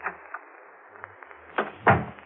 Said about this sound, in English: I'll take the key out of this door, too.